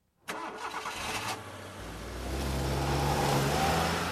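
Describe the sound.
A car engine cranks and catches, then settles into a low, steady rumble that grows louder as the car pulls away.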